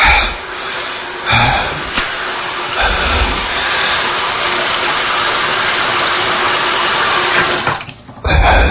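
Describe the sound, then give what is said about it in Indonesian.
Tap water runs in a WC as someone washes their face, a loud, continuous rushing hiss that drops out briefly near the end and then starts again. “Aku pun langsung bergegas pergi ke WC. Aku langsung membasuh muka aku dengan air.”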